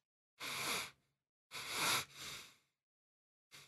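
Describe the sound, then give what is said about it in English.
A person imitates heavy breathing through the nose mixed with sniffing: a few loud, breathy bursts of rushing air separated by short pauses, with no speech. “So it's very heavy kind of breathing through the nose and sniffing.”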